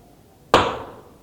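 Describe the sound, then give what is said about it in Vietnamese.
A bell is struck once during a Buddhist sermon, giving a sharp, bright single strike that rings out and fades over about half a second against quiet surroundings. “Quý vị đánh một tiếng chuông và lại một lại.”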